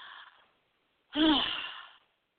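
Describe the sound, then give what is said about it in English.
A person takes deep breaths: a faint breath trails off at the start, then after a short silence comes one loud, drawn-out, breathy rush lasting about a second before fading out. “Let me take a couple of deep breaths”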